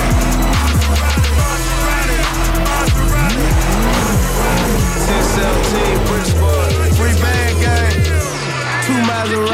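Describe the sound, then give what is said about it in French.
Porsche Carrera 4S car arriving, its loud engine roar rising and falling through repeated revs with squealing tires, continuous over the whole stretch. “il y a une Porsche Carrera 4S qui arrive par un conducteur pieds nus”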